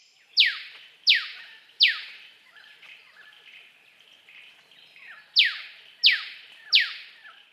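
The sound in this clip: An Eastern Yellow Robin gives its choo-choo call: six sharp downward-sweeping notes, three in quick succession, a pause, then three more, fairly loud and clear over quiet background.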